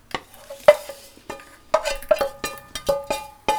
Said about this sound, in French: Là maintenant, on va faire revenir les patates. D'accord. Dans de l'huile de tournesol.